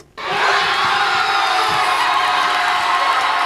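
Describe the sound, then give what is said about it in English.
Fans at a packed Cape Verdean social club in the Hollow section of Bridgeport erupt in cheers as Cape Verde scores its first-ever World Cup goal, against Uruguay. The roar hits suddenly, then holds as loud, sustained shouting and whooping. “That was the sound of jubilation at the packed Cape Verdean Social Club in the Hollow section of Bridgeport as the country scored its first ever World Cup goal.”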